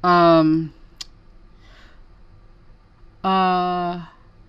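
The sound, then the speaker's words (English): A computer mouse gives a single short, crisp click, set between two stretches of speech. “If I can find my mouse to click on my other news reports.”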